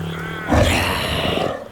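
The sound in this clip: A prehistoric saber-toothed tiger roars while hunting from ambush: a single loud, rough, growling roar bursts in after a brief low hum and holds for about a second before easing off.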